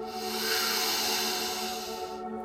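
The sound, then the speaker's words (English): A deep breath is drawn in through the nose during a guided breathing exercise. It makes a long, even, airy hiss that holds steady for a couple of seconds, then tapers off, with no talk over it. “We're gonna try that breath again, okay? Deep breath in through the nose.”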